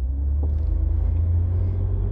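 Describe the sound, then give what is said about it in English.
Deep, steady engine rumble fills the inside of a car as it drives, a continuous low drone with no speech over it. “So now I'm just driving home.”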